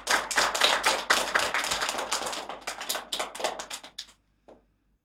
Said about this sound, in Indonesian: Mari kita sambut Jaden dengan tepuk tangan yang meriah.